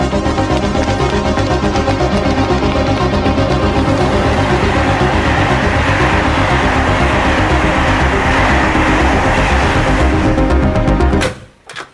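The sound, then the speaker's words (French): A train departs from a station platform, its loud, steady rumble carrying a rhythmic rattling clatter throughout before the noise cuts off abruptly near the end. “Il y a un train qui va partir là.”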